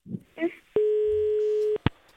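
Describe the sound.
A telephone ringing tone sounds while a call is being placed: one steady, mid-pitched tone lasting about a second, with brief voice-like sounds just before it and short clicks after.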